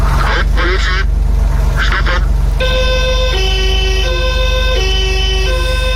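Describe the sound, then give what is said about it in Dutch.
Siren of an old 1979 police Porsche 911, loud and sustained, alternating between a high and a low tone. A few short honking bursts come before it. “Dat is het geluid van de oude politie Porsche 911.”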